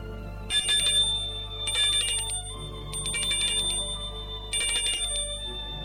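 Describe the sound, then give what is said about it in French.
A doorbell ringing at a house in a French-language story sounds as four bursts of a bright, trilling electronic bell tone, separated by short gaps, over a steady low hum. “Dans l'après-midi, elle va sonner chez Mathilde.”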